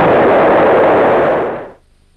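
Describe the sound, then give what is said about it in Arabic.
A loud, dense roar from the space shuttle Challenger exploding 76 seconds after launch, its fault a leak in the right-side booster. The full, steady blast holds for over a second, then quickly dies away. “بعد 76 ثانية من الصعود قتل الملاحون بتقدير الله عندما انفجر تشالنجر.”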